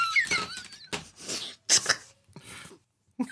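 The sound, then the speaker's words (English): The squeaky, unoiled hinges of an opening coffin lid give a high, wavering squeal, then several rough, grinding creaks with short pauses between them. “It's the coffin lid that's opening. What is it? You seriously need to get your hinges oiled.”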